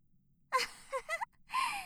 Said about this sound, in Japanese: たっぷり吸い込んでください。ほら、吸って、吐いて、吸って、吐いて。